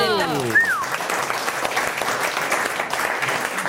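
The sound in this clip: Audience applause at a live comedy show, dense and steady clapping throughout, with a brief whoop of a voice rising over it near the start.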